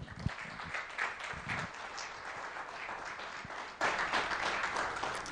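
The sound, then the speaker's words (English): Audience applause welcoming a couple onto the stage: dense, steady clapping fills the whole clip and swells noticeably louder for the final stretch. “Please, please put your hands together and welcome Jeff and Marianne.”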